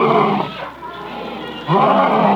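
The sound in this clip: A lion roars twice, each time a loud, deep, throaty bellow, with a quieter breathy growl in the gap between the two roars.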